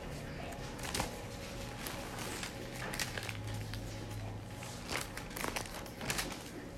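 Bible pages being flipped give a dry, crinkly paper rustle, several soft crackling bursts scattered over a steady low background.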